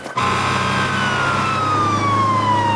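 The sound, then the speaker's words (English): A fire engine siren wails loud and unbroken as the truck pulls up outside a club ringed by police cars, its tone gliding slowly downward with no voices over it. “the club's already surrounded by police cars when a fire engine pulls up outside”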